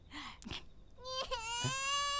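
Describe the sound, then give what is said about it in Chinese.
A baby with a wet diaper cries, starting with short fussy whimpers and then breaking into a sustained wail. The crying is fairly faint. “你怎么哭了？”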